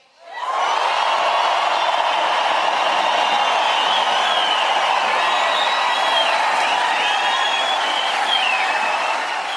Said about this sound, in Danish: Og nu et nifoldigt leve for hans majestæt, kongen. Hurra! Kæmpe jubel, selvfølgelig.